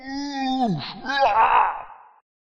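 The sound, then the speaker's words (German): A voice imitates an orc screaming in pain after being hit during a role-playing game: a strained, drawn-out wail that slides downward in pitch, then a second rough, moaning cry, lasting about two seconds. “Ja, du verletzt den Ork. Der schreit ja. natürlich, was Orks immer so schreien.”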